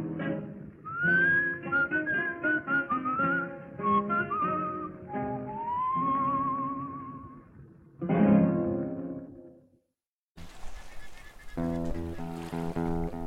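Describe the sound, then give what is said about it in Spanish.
Whistling of a melody with sliding, wavering notes over several phrases, moderately loud and alone, breaking off into a short silence before a burst of music begins near the end. “No poder escuchar hoy otra vez nuestra vieja señal, aquel silbar que a la hora de reunión el barrio oyó.”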